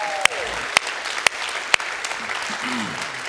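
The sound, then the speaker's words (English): Church audience applause for camp workers about to be commissioned, from the Kearney and North Platte campuses: steady crowd clapping punctuated by four sharp, louder cracks, with a brief voice-like tone near the end. “So can you guys here from the Kearney campus and the North Platte campus, can you just give it up for them right now? Come on.”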